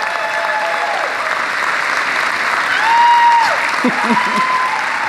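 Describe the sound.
Church audience applauding to welcome a new pastor for the first time, steady sustained clapping from many hands that swells briefly partway through, with a few voices calling out over it.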